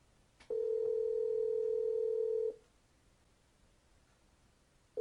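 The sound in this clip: Telephone line tone while a call is being placed: one steady mid-pitched beep lasting about two seconds, then a quiet pause, with the next beep just starting at the end.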